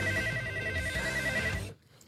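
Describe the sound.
Telephone ringing in an office, a dense, continuous electronic ring with bright overtones that sounds steadily for under two seconds and then abruptly stops.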